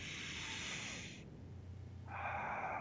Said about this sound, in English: by taking conscious control of the breath, you're telling your brain you're in control